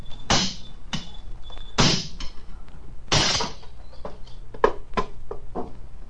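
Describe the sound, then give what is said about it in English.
The lock on an iron box is broken open with many sharp, ringing knocks and clanks at uneven intervals. The blows are loud and heavy at first, then turn into quicker, lighter strikes, with no talk over them. “Sergeant, break the lock.”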